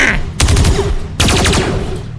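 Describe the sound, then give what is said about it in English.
A laser gun fires bolts in two loud bursts of rapid pulsing blasts. The second burst starts just under a second after the first, and both ring out with a harsh, dense texture. “Then the Shiny Man opens fire on Ace's former self. Fall!”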